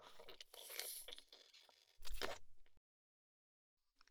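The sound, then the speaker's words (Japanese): Someone bites into food and chews it in two bursts of crisp crunching, then pauses before a faint sound at the very end. “次は味見だけじゃなくて食べちゃおうっと”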